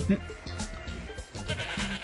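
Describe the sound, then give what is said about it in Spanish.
Goats and sheep bleat, a few short, wavering cries over a busy, cluttered background. “las cabras y las ovejas se comerán todo lo que hemos plantado.”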